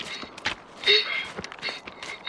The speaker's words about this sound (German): Jetzt renn mal nicht so schnell! Musst du halt schneller laufen